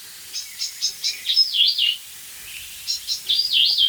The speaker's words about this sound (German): Warnruf Singdrossel würde ich mal sagen. Ja, das ist Warnruf Amsel.